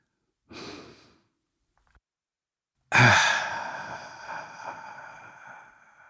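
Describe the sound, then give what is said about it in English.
A deep breath taken alone: a short, soft breath sound, a pause, then a long, louder sighing exhale that slowly fades away. “So, if you're ready, let's take a deep breath.”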